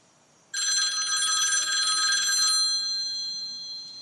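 A telephone rings on the line after a call is placed: a single long, bright, trilling electric bell ring that starts abruptly, sounds for about two seconds, then fades away as a lingering tail.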